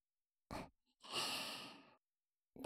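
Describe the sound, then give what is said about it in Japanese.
Soft, breathy blowing into the ears, meant to tickle. A short puff is followed by a long, sustained exhale, and another puff begins at the end. All of it is hushed and close, with no talking. “お耳の中全体がくすぐったくなるよ。いっぱいふうふうしますから。”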